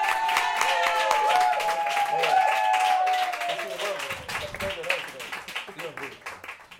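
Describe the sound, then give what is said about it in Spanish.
Audience applause for a flamenco performer during a live music set at a New York club. Clapping rises under a sustained vocal cheer, then fades into looser scattered claps while voices are heard over it. “Un aplauso grande para Sonia Olla, por favor.”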